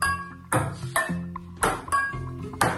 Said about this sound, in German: Und was ihr da gehört habt, das war... Ein Topf, richtig!